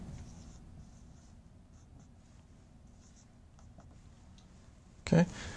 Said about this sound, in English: I'm going to write